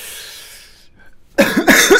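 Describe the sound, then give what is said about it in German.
A few harsh coughs from a person who is still slightly ill, bunched in a short, loud burst that follows a quieter stretch with no other sound. “Ja, immer noch ein bisschen husten.”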